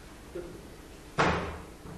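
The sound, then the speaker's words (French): A door with a broken latch being pushed open: a faint soft knock, then one sharp, loud thud that trails off into a brief rattle, with no talking. “Juste pousser la porte.”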